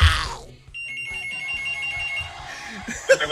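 A telephone rings for the first call of a radio call-in segment. After a loud opening burst, a pulsing high electronic ring trills steadily for over a second, then fades into low background sound.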